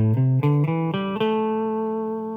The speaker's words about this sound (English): So A minor pentatonic sounds like this.